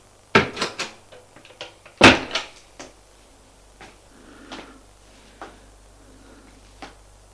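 A wardrobe door is opened and closed: a series of sharp knocks and clattering bumps, loudest near the start and again a moment later, then quieter scattered clicks and a soft rustle.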